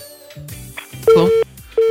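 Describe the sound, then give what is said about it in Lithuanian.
Line tones from a live call-in phone line that has been cut off: two loud, steady beeps of the same pitch with a gap between them, following a short stretch of murkier, quieter sound. “Deja, nutrūko ryšys, na, tikėkimės, kad dar kartelį sulauksime skambučio”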